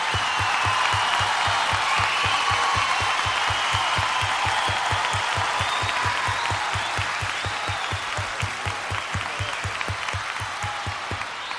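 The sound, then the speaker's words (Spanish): Audience applause for a singer at a live cumbia concert: dense, loud clapping that carries on steadily through the whole stretch and eases slightly toward the end. “Aplauso para ella, muchas gracias.”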